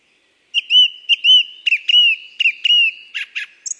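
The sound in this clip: Bird song from high in fir treetops: loud, energetic whistled phrases repeating a similar motif several times, followed by shorter, sharper notes and a final higher note.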